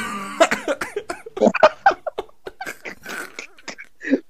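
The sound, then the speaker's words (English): A fit of coughing, many short, harsh bursts in an uneven rhythm over about four seconds, loud and close together with brief gaps and breathy sounds between them. “I'm going to cough.”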